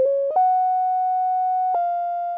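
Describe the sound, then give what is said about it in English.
Pure sine-wave tone, like a tuning fork, playing a simple pop melody in three sustained notes: a short low note, a step up to a long held higher note, then a slightly lower note held smoothly to the end. “on a sine wave, what a tuning fork puts out”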